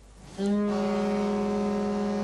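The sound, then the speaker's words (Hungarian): Deep, steady horn blast from a 400-tonne disaster-management icebreaker ship on the icy Danube, starting abruptly after a short quiet moment and holding loud and unbroken to the end. “Budapestről indult útnak a katasztrófa védelem csak nem 400 tonnás jégtörője a Dunán.”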